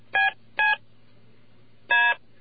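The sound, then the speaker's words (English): Telephone DTMF tones from the extra fourth-column keys, played in descending order: three crisp dual-tone beeps, two close together, then a pause before a third, each a clean steady electronic pitch over faint background hum. “if you had an extra row of keys on your phone, one to the right of the 3, to the right of the 6, to the right of the 9, to the right of the pound sign, they would sound like this, in descending order.”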